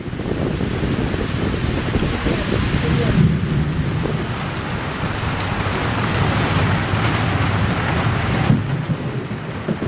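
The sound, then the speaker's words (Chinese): A sudden violent thunderstorm with heavy rain and gusting wind sweeps an archaeological excavation site, a dense, loud, unbroken roar of downpour with wind buffeting the microphone throughout. “发掘现场突然迎来的狂风暴雨，将原本焦热的墓穴封土迅速打湿。”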